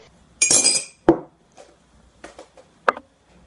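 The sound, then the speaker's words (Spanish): A utensil clinks against a bowl as oil, sugar and salt are mixed into batter. A short burst of scraping and clattering is followed by a few scattered, sharp clinks at irregular intervals, with no talking. “Lo mezclamos todo”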